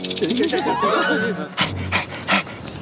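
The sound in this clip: A dog whimpering, then panting: a thin, wavering high whine runs through the first half, followed by a few quick, breathy pants.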